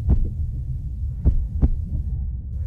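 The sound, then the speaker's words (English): A bus driver's heartbeat after being yelled at, insulted and threatened: a few deep, dull thumps at uneven spacing over a low, steady throbbing hum. “This is the sound of a bus driver's heart rate after they were yelled at, insulted,”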